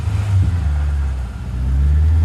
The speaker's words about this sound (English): She watches him drive away.